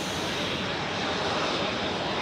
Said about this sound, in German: Mit einer Steigleistung von bis zu 200 Metern pro Sekunde hebt der Jet ab.